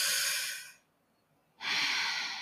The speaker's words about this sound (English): Now inhale, mouth, exhale, nose.